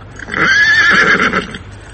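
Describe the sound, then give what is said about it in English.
A vixenish little mare, halted by heavy snow and a mighty gust of wind, lets out a single high, wavering whinny lasting about a second, loud and alone. “It was a vixenish little mare, but she and Tom knew each other, so she kept going till a heavy fall of snow and a mighty gust of wind brought her to a standstill.”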